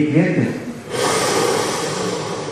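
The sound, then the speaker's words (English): An audience taking a deep breath together at an exercise in a talk: a brief spoken voice gives way to a broad, sustained rush of many people inhaling, holding steady to the end. “Put your hands in the air. Everyone, all your hands. Everyone take a deep breath.”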